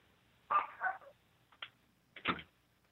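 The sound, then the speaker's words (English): A pet dog gives a few sharp, high-pitched barks and yelps in short separate bursts, fairly loud against a quiet background. “Oh, what was that? Oh, that was our dog.”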